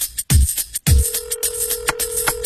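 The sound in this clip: A telephone ringing, a steady held tone that begins about a second in and sustains to the end over a busy layer of other sound, with two heavy low thumps near the start.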